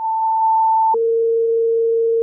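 Two-tone dispatch paging alert toning out a unit on emergency radio: a steady higher tone holds for about a second, then drops cleanly to a lower, steadier tone that sustains for over a second, loud and alone.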